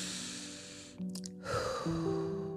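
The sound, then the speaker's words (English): A deep breath in and out, taken during a calming close to a healing session: two long airy breath sounds separated by a short pause, over soft sustained musical tones. “We're gonna just take a moment to do a breath in and out,”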